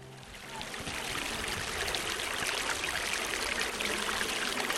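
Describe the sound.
Water of the Suwoncheon stream pours through the seven arched channels of Hwahongmun, the north water gate of Suwon's Hwaseong fortress, topped by a pavilion, making a steady, dense rushing hiss that continues without a break.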